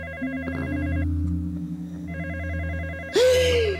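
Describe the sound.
A telephone rings with a warbling electronic ringtone in two bursts separated by a short pause, over a low steady hum, before a sudden louder sweeping sound cuts in at the end.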